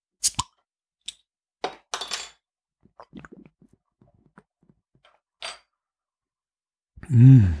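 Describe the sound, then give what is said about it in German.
Beer bottle being opened, heard as a few sharp glassy clicks and clinks, a short hissing burst, then scattered faint taps. A voice hums briefly at the end. “Ich muss mal gerade ein Bier öffnen.”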